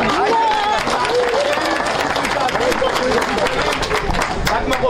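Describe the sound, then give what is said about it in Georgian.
Protesters in Gonio applaud a council decision after a 15-day protest outside the council, a steady, dense burst of clapping with crowd noise and voices talking over it. “გონიოელები, რომლებიც ამ გადაწყვეტილებას 15 დღე საკრებულოსთან გამართულ საპროტესტო აქციაზე ითხოვდნენ, სიახლეს ოვაციებით შეხვდნენ.”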